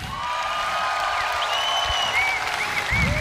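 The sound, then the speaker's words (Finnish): Audience applause at a summer concert as a new guitarist is introduced: dense, steady clapping from a crowd that holds evenly throughout without a break. “Isot Aplodit”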